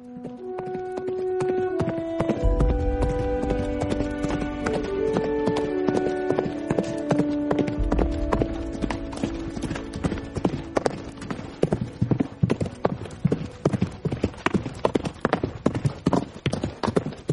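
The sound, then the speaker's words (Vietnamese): Two horses' hooves clip-clop at a brisk trot, making many sharp, regular hits that grow more distinct in the second half. Sustained tonal music plays underneath through the first half. “Đến canh hai thì hai người tạm biệt chủ nhà, lên ngựa đi về phương Bắc.”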